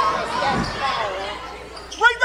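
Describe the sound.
A basketball bounces on the court during a women's game, a dull low thud heard under fast play-by-play commentary.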